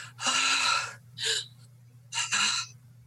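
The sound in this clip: A voice imitates a mannequin's gasping: a few harsh, breathy gasps, the first long and drawn out and the later ones shorter and clipped, over a low steady hum.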